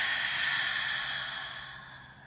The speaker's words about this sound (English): So take a deep breath in and release.